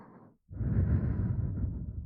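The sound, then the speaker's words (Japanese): Breath blown softly into an ear: a short airy puff, a brief silence, then a longer steady whooshing exhale that stays close and fairly loud without any speech. “まだお耳に吐息吹きかけてるだけなのに、かわいいな。”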